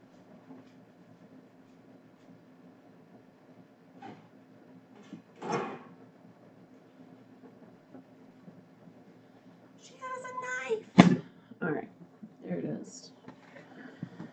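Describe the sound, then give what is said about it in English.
A cutting board is fetched in a kitchen to cut a lemon: faint handling at first, then a cluster of knocks, a rattling scrape and one sharp clack near the end. “All right, I need a cutting board to cut open this lemon, I realize. Hold on, let me get the cutting board.”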